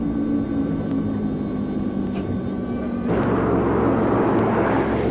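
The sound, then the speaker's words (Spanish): Aircraft engine drone from the Tango 01 at Puerto Argentino with its number three engine running: a steady, dense roar with a sustained hum that steps up slightly louder and fuller partway through. “El Tango 01. Llega a Puerto Argentino, conduce al jefe del ejército. Bueno, con el 3 puesto en marcha.”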